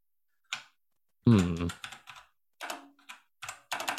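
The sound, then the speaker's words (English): Typing on a computer keyboard comes in a few short bursts of clicking keystrokes, with a brief voice speaking among them. “Do you want me to type this”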